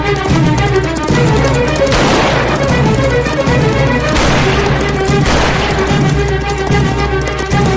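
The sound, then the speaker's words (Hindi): Revolver gunshots in a shootout on horseback among rocks: a few sharp blasts burst through a dense, continuous wash of loud sound. “Revolver उसके काफी नजदीक है। Gabbar revolver से गोलियां चला रहा है।”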